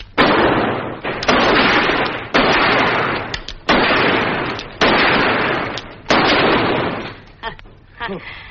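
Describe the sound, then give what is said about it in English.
Gunshots from a gun: about six loud, sharp blasts spaced roughly a second apart, each trailing off in a long decaying tail, followed by a few fainter bangs at the end. “What are you doing with my gun? Oh, I used to be a mighty pretty shot.”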